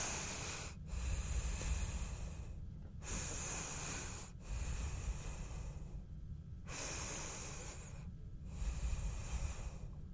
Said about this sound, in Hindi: अगर आप कितनी भी जद्दोजहद में लगे हों, थोड़ी सी लंबी गहरी सांस के साथ आपको वो सुकून पहुंच पाए जो कि आप डिजर्व करते हो।